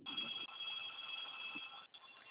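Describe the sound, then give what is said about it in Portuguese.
A telephone rings during a phone call with a client about a loan. The ring is a faint, steady high electronic trill that runs almost unbroken, dipping only briefly near the end. “Só um instante, que o telefone aqui tá tocando.”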